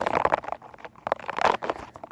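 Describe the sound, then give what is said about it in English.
Squishy, crinkly squeezing of a pink, rubbery, spiky light-up ball, heard as a few soft, crunchy bursts of friction, fairly quiet and with no talking over it. “It's this, spiky ball. It's pink and it lights up. It just flashes blue and red. It's just so satisfying to, it's rubbery and it has spikes all over it.”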